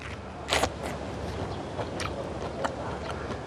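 Biting into and chewing a fully ripe Beijing No. 7 peach with crisp, juicy flesh: a few soft crunchy bites and quieter chewing noises, faint overall and with no talk.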